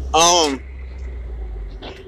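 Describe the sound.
Low, steady rumble of a car driving on a road, running under the whole clip, with a short burst of a person talking at the start and another brief voice near the end.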